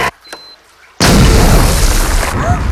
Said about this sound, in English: Annabelle triggers the explosion